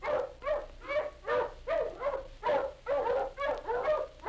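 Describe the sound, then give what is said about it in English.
Hunting dogs in Florida barking and baying in action, many loud, regular bays with a wavering, howl-like pitch, one after another without pause. “That was the sound of Florida hunting dogs in action.”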